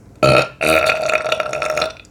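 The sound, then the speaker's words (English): A loud, deep belch rolls out in one long voiced burst with a brief break near the start, then holds steady for over a second before cutting off, with no other sound around it. “I'm just gonna completely not acknowledge that I just, like, let out a massive belch”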